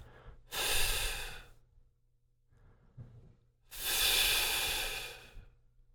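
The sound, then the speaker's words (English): Breath pushed out in long, sustained hissing "F" sounds during a slow breathing exercise. Two drawn-out breathy exhalations, each lasting about a second or more, are separated by a softer, quieter breath. “As you become comfortable with the easy F breath, begin to lengthen the F sound with each breath.”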